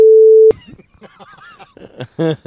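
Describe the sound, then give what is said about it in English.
A censor beep over a person's name: one loud, steady pure tone lasting about half a second that cuts off abruptly, followed by people talking. “beep this name.”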